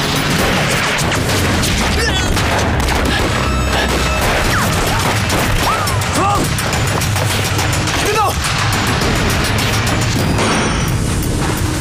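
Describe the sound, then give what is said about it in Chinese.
A dense barrage of gunfire, with many shots and booms crackling without pause at a constant loud level, and shouting voices breaking through the din. “有子弹，快跑！”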